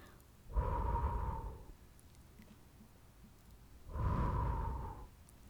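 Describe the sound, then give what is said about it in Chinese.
Two slow, soft exhales blown into a microphone for ASMR, each about a second long and breathy, separated by a quiet pause. “还有呢，聆听别人向麦克风吹气或呼气，所以我们现在要来呼一下嘛。”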